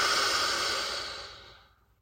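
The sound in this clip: A long, slow, deep exhale from a guided mindfulness breathing exercise: one soft, breathy rush of air that starts fairly loud and fades steadily to silence, with no talking.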